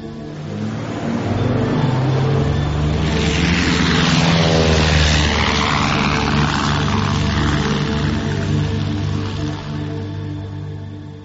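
A propeller aircraft flies, its engine a loud, steady droning roar over a low harmonic hum. The roar swells early, holds strong for most of the eleven seconds, then eases slightly at the end, with no voices.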